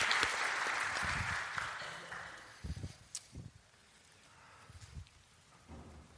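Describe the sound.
A church audience applauds to welcome a guest speaker, the clapping loud and dense at first, then fading over a couple of seconds into a few scattered claps and thumps.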